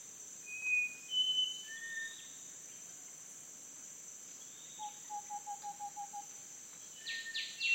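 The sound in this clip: Faint birdsong in a jungle, scattered whistled calls and a quick run of repeated notes over a steady high insect drone.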